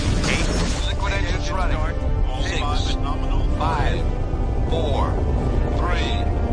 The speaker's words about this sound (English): T-minus 10, 9, 8. Liquid engines running.